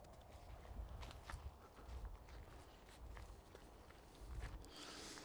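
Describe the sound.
Footsteps walking along a private path by a farmstead in Niebert, in the Groninger countryside, a steady series of soft, dull steps over a constant background rustle.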